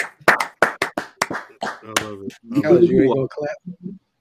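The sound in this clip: Hand clapping: a quick run of sharp, crisp claps at a fairly steady pace, followed by a man's voice talking and laughing.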